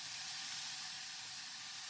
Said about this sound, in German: Jetzt kommt schon direkt der Speck dazu. Jetzt kommt der Speck dazu schon.